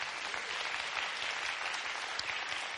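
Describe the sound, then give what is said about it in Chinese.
Applause from an audience during a church sermon: dense, steady clapping that holds at an even level for its whole length, with no clear voices above it. “哎，要拍就大声拍好不好？”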